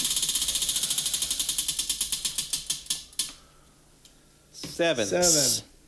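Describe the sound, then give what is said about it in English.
A game spinner clicks as it spins. Rapid, evenly spaced ticks gradually slow and stop after about three seconds, then people start talking. “I think we might want to try to spin the other way because we're getting a lot of the top half numbers. Spin it the other way. Or maybe we'll alternate spinners.”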